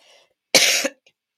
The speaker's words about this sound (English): I'm blaming my coughing on you